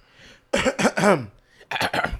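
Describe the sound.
Throat clearing comes in two raspy, voiced bursts, a longer rough run of three pulses followed after a short pause by a briefer one, loud and alone.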